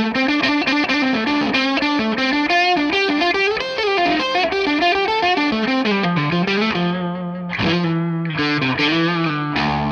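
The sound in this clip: Electric guitar played through a Hot Cake distortion pedal, giving a loud, fuzzy overdriven tone across a continuous melodic phrase with sliding notes and a couple of brief dips near the end.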